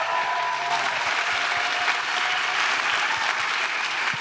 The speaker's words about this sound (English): Hey, can we just give a warm, welcoming hand to some of our missionaries from around the world real quick?